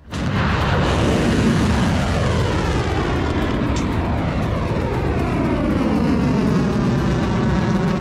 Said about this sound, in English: The launch of the Khyber Shaykan medium range ballistic missiles that are being launched in this case at Muwaffaq al-Salti in Jordan.